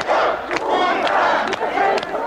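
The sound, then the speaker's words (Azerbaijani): A crowd of thousands shouts together at the barricades outside parliament in Moscow during the August coup, a loud, continuous roar of massed voices with recurring surges. “Onlar qələbə bizimdir deyə qışqırırlar.”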